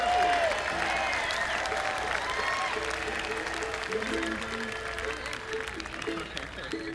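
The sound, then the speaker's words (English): An audience applauds a fiddle player at a live show with steady, continuous clapping throughout, while a voice speaks over it. “How about a hand for Jason Carter on our fiddle here?”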